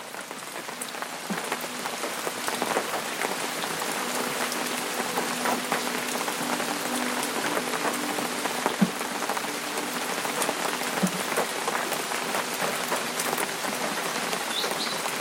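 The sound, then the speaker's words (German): Rain falling and pattering on surfaces, a dense, even hiss of countless drops with scattered sharper ticks, holding steady at a moderate level throughout with no voices. “Der Regen wird stärker.”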